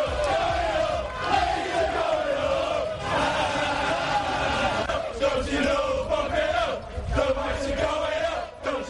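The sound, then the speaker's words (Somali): Leeds United football fans roar and chant at their home stadium, a loud, sustained din of massed voices. The crowd noise swells and dips slightly but never stops. “Sawaxanka iyo sacabka aad maqlaysaan waa taageerayaasha kooxda kubadda cagta ee Leeds United oo ku dabaaldegaya garoonka ay kooxdoodu ku ciyaarto ee Allen Road banaankiisa”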